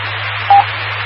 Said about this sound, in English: Okay, I tried my Kentwood TMV-71. It's highly suspect. I must have a bad tone generator or something.